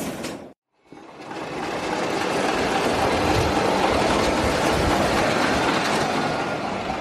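A train at a station as its locomotive is uncoupled: a loud, steady rumble and rattle that holds throughout, broken only by a brief silence near the start.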